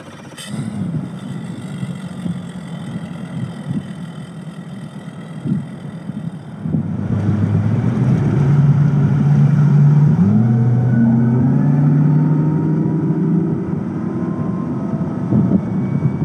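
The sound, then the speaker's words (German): A Mercury outboard motor drives a rigid-hull inflatable boat. It runs at a steady drone, then opens up partway through into a louder, sustained engine roar whose tone shifts as it continues. “Mit aufbrüllendem Motor hob sich erst der Bug, dann der komplette Festrumpf des Schlauchboots aus dem Wasser.”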